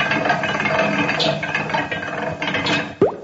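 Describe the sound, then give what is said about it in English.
A broken-down joke machine is cranked by hand, giving a steady rattling, ratcheting clatter, then a quick rising whistle-like swoop near the end. “Try cranking the machine by hand.”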